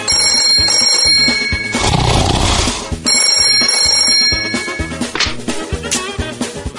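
A telephone rings while a call is being placed, sounding as two long, steady electronic ringing bursts with a busy background continuing beneath and between them.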